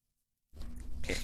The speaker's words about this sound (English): We've got more puppy. More puppy.